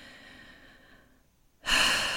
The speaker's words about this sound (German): Nimm ein paar tiefe Atemzüge